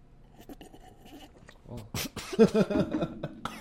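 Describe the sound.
Coughing after something got stuck in the throat while tasting a flavor: a few harsh, rough coughs in quick succession, followed by strained voiced sounds from the same person.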